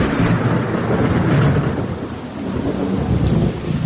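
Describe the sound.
Thunderstorm with heavy rain and rolling thunder, a dense, loud, continuous roar of downpour with deep rumbling underneath throughout.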